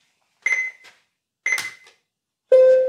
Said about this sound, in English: if I actually used the alarm setting on this clock. It's pretty piercing. There we go. So every now and again, excuse me, I'll press snooze.